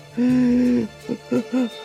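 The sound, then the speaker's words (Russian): An owl hoots from a tree hollow: one long, low, steady hoot followed by three short hoots of the same low pitch, loud and clear with no talk. “Из дупла выглянула заспанная сова.”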